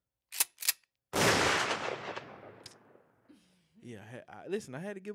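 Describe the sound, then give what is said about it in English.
Gunshot sound effect: two short, sharp cracks followed by a louder blast whose rumbling tail slowly fades, then a man starts talking. “I had to lick a shot for the boy, man.”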